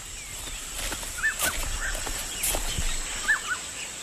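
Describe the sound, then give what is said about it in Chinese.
A flock of egrets is startled into flight by a river. A few short, harsh calls and scattered brief bursts stand out faintly against a steady hiss. “郑氏带着2个孩子来到河边洗衣服，忽然惊飞了一群白鹭。”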